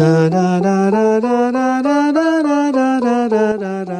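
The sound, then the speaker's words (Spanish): A natural minor scale is played on a melodic instrument with a sustained, rich tone. It climbs one step at a time, then comes back down at the same steady pace. “La escala menor, a la que uno está acostumbrado, la que más se utiliza, dice así.”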